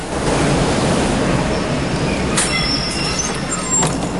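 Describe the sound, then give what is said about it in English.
A single-carriage tram pulls up at a platform with a continuous rumbling roar. Thin, high metallic wheel squeals cut in during the second half, along with a couple of brief hissing bursts. “A single-carriage tram approaches the platform. The tram pulls up.”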